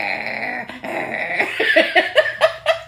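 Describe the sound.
A human voice imitates a little chihuahua growling: a rough, throaty snarl that builds into several short, sharp yappy bursts toward the end, heard alone.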